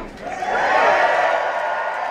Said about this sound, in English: Now, that's a great way to start. You got the crowd. I mean, I would say that's full crowd participation.